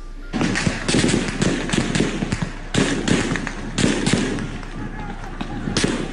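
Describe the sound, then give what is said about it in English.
Soldiers' gunfire during an early-morning massacre in Sudan: many sharp, loud cracks in dense, rapid runs, with brief gaps, across the whole clip. “Soldiers opened fire early in the morning. Here is what it sounded like.”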